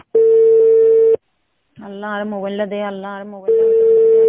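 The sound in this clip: Unanswered phone call ringing, with long steady ring tones at a fixed pitch and a woman's pleading voice heard between two of the rings.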